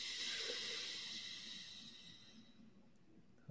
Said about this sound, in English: Inhale big. Let it go. Again, in.